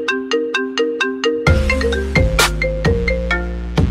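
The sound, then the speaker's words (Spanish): A jingle like a mobile phone ringtone opens with six short, identical electronic beeps, then breaks into a fuller, louder synthetic melody with a deep bass line and punchy percussive hits. “Bueno, pues le tiene hasta su propio tono musical, que casi parece un tono de un móvil, un politono”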